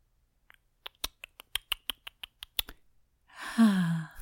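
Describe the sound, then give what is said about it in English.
A voice imitates an old-school film projector starting up, with a long run of many crisp mouth clicks in a steady rhythm, followed by a contented, drawn-out sigh that falls in pitch. “Is that the old school projector starting up? It is. And then a sigh of happiness.”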